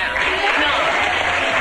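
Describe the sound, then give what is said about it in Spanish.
Applause from a crowd of adults: a short, dense burst of steady clapping at moderate loudness, with a voice mixed in. “Y el aplauso, vale, el aplauso, y el aplauso de un montón de adultos.”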